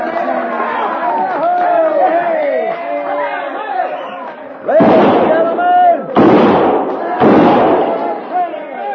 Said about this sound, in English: kindly refrain from shooting six guns in the establishment, because the next man that does it is going to get thrown out on his saddle.